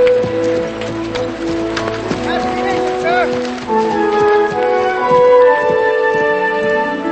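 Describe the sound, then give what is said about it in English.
Horse hooves clip-clopping as a rider departs, a loose, uneven beat of footfalls mixed under sustained music. “Benjamin walks away, and Villeneuve nods as he watches him ride away.”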